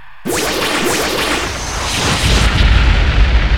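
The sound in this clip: A gunshot cracks out sharply, then a long, loud rumbling roar follows and swells deeper toward the end.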